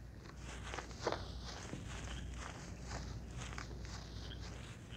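Footsteps walking through the woods, a steady pace of many crunching steps over about five seconds, with one heavier footfall near the start and no talking.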